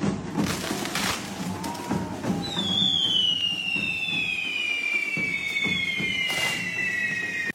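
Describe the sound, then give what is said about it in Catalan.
Fireworks at the Diables de Castellterçol correfoc fire run on a Saturday night: crackling bangs and bursts, with a long, high whistling tone that slowly falls in pitch over steady background noise. “Són els sons d'alguns dels moments que han brindat els Diables de Castellterçol dissabte a la nit amb un espectacular correfoc que ha estat tot un acte de masses.”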